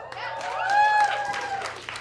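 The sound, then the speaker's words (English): A studio audience cheers and claps, with scattered applause and a held cheer that swell in the middle and then ease off, while a voice speaks over it. “Are you sure we should be cheering? Yes, we should be cheering.”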